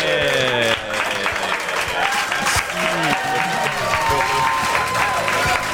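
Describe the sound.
A French television studio audience claps and cheers for arriving guests, dense applause running throughout with voices calling and talking over it.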